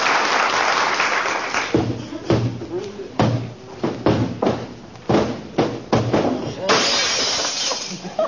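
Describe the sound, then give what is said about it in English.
A hall mirror slips from someone's hand and shatters, producing many loud crashing, breaking impacts and thuds in a rapid, uneven series lasting several seconds. “I was just cleaning the mirror in the hall, kiddo. Slipped out of my hand.”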